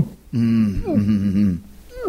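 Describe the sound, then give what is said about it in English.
A voice imitates the involuntary breath-hold contractions of an exhausted freediver underwater: a strained, voiced groan with a wavering, bending pitch, held for just over a second with brief throaty catches. “I started getting those involuntary compressions or whatever it's called, where you hold your breath so long and you're so exhausted that you start going like...”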